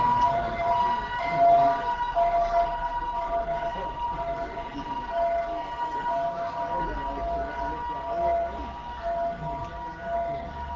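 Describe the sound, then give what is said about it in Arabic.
A fire engine siren wails steadily through the whole stretch, a faint, sustained tone that wavers only slightly over a low background rumble. “ده هنا ده؟ مطافي المطافي خليك، مش بوليس النجدة.”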